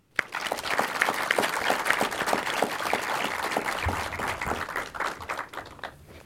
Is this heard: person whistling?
no

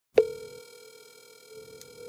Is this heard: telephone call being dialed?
yes

